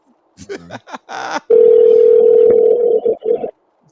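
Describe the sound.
Telephone ringback tone of an outgoing call waiting to be answered: one long, loud, steady electronic tone lasting about two seconds, coming after a few short bursts of voice sound.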